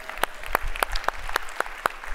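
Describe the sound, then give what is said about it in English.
Applause at a weekend service gathering: seven sharp, evenly spaced claps in a steady rhythm, fairly faint over a low background hum. “You can applaud that.”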